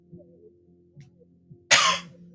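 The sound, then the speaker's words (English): A single loud cough bursts out near the end of a quiet stretch and fades quickly, with only faint low murmurs before it. “I need a mute button. Coughing now.”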